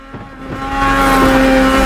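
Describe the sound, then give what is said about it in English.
Snowmobiles drive off across snow, leaving parked trucks behind. A loud, buzzing engine drone swells in after a quieter start and then holds steady. “Now the occupants of the remaining trucks are on motor sleds too, and are driving away from their parked vehicles.”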